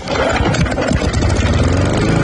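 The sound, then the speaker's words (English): A Massport lawn mower engine runs at a steady drone, a loud, continuous mid-low rumble with no clear change in speed across the whole stretch. “Massport, trusted for generations, built to last. For your next mow, make sure it's a Massport.”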